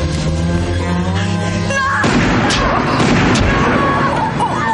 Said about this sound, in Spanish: El otro policía dispara a Evaristo cerca del vientre.